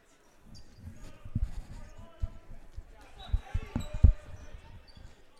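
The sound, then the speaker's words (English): Basketball dribbled on a court during a boys' high school game: a few hard, low bounces thud at uneven intervals, the loudest near the end, under continuous commentary talk. “he'll dribble it up”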